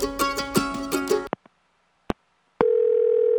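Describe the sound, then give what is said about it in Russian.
A telephone dial tone sounds while a call is being placed: music plays, a few sharp clicks follow, then a loud, steady, unbroken tone. “Настало время звонка. Позвоню Денису Косякову, пускай даст совет.”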